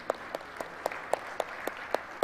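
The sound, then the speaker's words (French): Hand clapping at a church gathering, nine sharp, evenly spaced claps at a slow, steady rhythm, fairly quiet, with no talk over them. “Regarde, on l'applaudit.”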